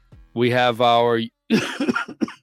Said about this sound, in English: I got to get my cough button ready. Get my mute here. And then unmute so you can't hear the coughing.